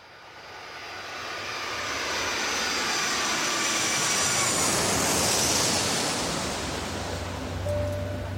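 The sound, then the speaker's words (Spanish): An airplane takes off from Veracruz toward Cancún, loaded to capacity. A broad roar swells over the first seconds, holds as a loud steady rush with a faint high whine, then eases slightly at the end. “El avión se alzó despacio desde Veracruz hacia Cancún con el sol cayendo por la cola.”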